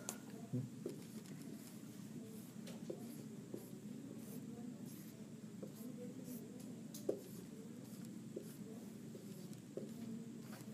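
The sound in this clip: A pen scratches out a diagram in many faint, short strokes, a soft, irregular scraping that continues steadily at a low level.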